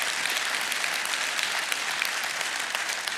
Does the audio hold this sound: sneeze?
no